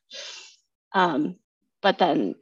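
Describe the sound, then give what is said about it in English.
A person with his tongue out breathing really hard and loudly: three forceful breaths, the first an airy rush, the last two harsher and voiced, the final one split into two quick pushes. “sticks his tongue out, and then he like breathes really hard and really obnoxiously loud.”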